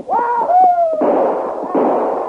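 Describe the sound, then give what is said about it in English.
Two loud, sharp bursts of gunfire from a rider on horseback arriving at a house, each blast trailing off in a rough, lingering roar. “in front of the Taylor place and announced his arrival with a volley of shots”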